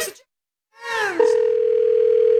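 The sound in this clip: Telephone dial tone for a phone call: a brief falling swoop leads into a steady, unbroken mid-pitched tone that holds loudly to the end.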